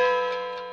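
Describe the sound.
A clock sound effect gives a single ringing, bell-like tick with a sustained tone that slowly fades, heard alone.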